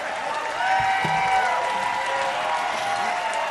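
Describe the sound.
Sustained audience applause and crowd noise at a concert for bluegrass musician Billy Strings and his father Terry Barber. The clapping is steady and dense throughout, with faint cheering mixed in.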